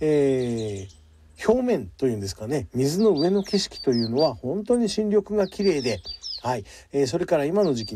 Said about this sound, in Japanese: 耳を澄ませば今聞こえてくると思いますけど、この鳥の鳴き声というのが賑やかで本当にね癒されます。